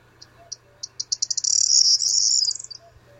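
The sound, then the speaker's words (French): Bird song: a signature call repeated with little variety. A few spaced high notes speed up into a loud, sustained buzzy trill lasting about a second, then stop abruptly over a faint low hum. “C'est un oiseau qui fait toujours cette formule-là. C'est vraiment sa signature. Avec très peu de variété, des silences entre, mais il va revenir.”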